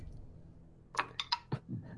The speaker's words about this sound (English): can you roll me your 3 dice worth of damage, please?